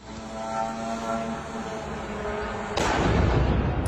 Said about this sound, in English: That is the sound of a Russian drone hitting a block of flats in the border city of Galați.